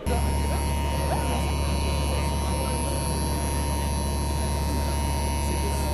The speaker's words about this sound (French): Et c'est avec ce bruit que tous les auditeurs ont évidemment reconnu, qui est celui d'un appareil à remuer la maïzena